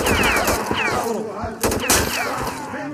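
Video game gunfire with slow-motion RPG effects: dense, continuous bursts of shooting mixed with gliding, warped tonal sweeps, and one heavier blast punching through near the middle.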